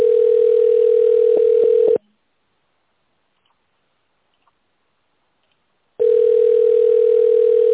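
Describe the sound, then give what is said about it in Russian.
A phone line's ringing tone plays while a call is transferred to an administrator: two long, steady, mid-pitched tone bursts separated by a few seconds of silence, with a few faint clicks in the first burst. “Вызов переводится на администратора.”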